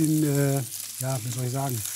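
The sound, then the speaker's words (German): Shallots frying in a pan, giving a steady sizzle that runs through the whole moment beneath a wavering hummed tone. “Dann machen wir ein paar Schalottchen mit dabei. Die haben wir hier.”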